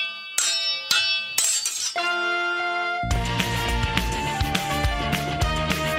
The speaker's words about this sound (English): What's that sound? It's swords in a sword fight.